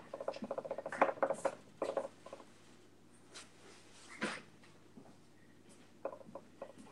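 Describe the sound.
A hardcover notebook being handled: quiet rubbing and rustling with a quick run of taps and knocks early on, then sporadic brief knocks and scrapes. No talking.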